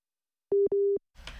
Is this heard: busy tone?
yes